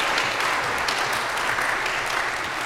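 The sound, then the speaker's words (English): Children's church audience applauding: continuous, full clapping from many hands, steady and loud throughout without a break. “Can we give all of them a great big hand?”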